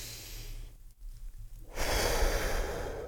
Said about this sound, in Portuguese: Primeira coisa, puxa o ar. Solta o ar. Vamos mais uma vez. Puxa o ar.